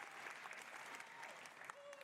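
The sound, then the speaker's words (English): Faint, steady clapping from an audience at a video game presentation, a dense continuous patter that holds at an even low level across the whole moment. “What are they clapping for? We don't know what it is yet. Community program. I don't know what it is yet. It's all Ubisoft people clapping.”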